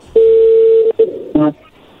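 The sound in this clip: Telephone tones as a number is dialed: one long, steady mid-pitched tone, then two shorter tones, the last buzzier and harsher.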